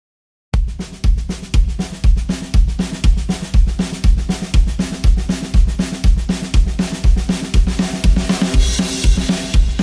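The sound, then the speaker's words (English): A rocky, punky cowpunk drum kit plays a country-and-western style beat. It starts after a brief silence, then a steady, driving pattern of punchy kick and snare hits repeats evenly throughout. “So here's the sound of the drums. I put together some drum recordings, and this is what they sound like.”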